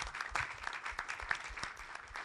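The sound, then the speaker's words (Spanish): Audience applause for presentations: a steady, dense patter of many hands clapping that stays fairly faint and even throughout, with no voices over it. “solamente la tercera y cuarta presentación recibieron un aplauso. Y yo creo que la primera y segunda también lo merece, aunque tarde.”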